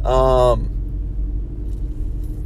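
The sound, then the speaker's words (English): A car's interior rumble is heard while driving: a low, continuous drone that carries on alone after a brief voice at the start. “I'm driving. I'm actually driving and recording a podcast.”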